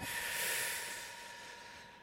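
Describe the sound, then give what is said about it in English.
A sharp intake of breath: a breathy, hissing rush that starts strong and slowly thins out over about two seconds, heard alone. “That was a sharp intake of breath.”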